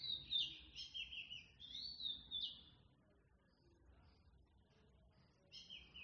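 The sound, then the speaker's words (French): Birdsong in nature: bursts of high, thin chirps and trills, faint overall, sounding alone at the start, dropping to near silence through the middle, then returning briefly at the end. “Écoutez bien tous les sons de la nature qui viennent nous sublimer, le langage des oiseaux.”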